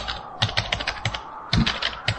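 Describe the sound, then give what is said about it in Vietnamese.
Quick typing on a computer keyboard: many rapid, irregular keystroke clicks follow one another in short bursts, with no voices. “Cô gắng trấn tĩnh, gõ nhanh bàn phím.”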